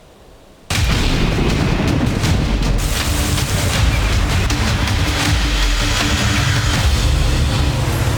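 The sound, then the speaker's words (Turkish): Heavy downpour in a rainstorm in Istanbul, with flooded roads and underpasses: a dense, loud, constant roar that cuts in abruptly after a quiet opening and stays steady throughout. “Özellikle bazı ilçelerde dün görülen şiddetli yağış günlük yaşamı olumsuz etkiledi. Alt geçitleri su bastı, yollar yine göle döndü. Trafikteki sürücüler zor anlar yaşadı. İşte mega kentten sağanak manzaraları.”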